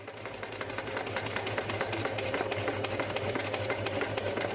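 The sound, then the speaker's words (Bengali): Rapid, steady whirring of a sewing machine stitching clothes in a shop, its needle beating in an even mechanical rhythm at a moderate level without pause. “কাজী ভাই দোকানে জামা সেলাই করছে”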